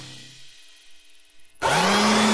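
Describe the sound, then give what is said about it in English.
An Echo leaf blower starts abruptly after a quiet stretch, breaking into a loud, steady engine roar with a rising whine that settles into a constant hum. “They have Echo leaf blowers to get leaves out of your way.”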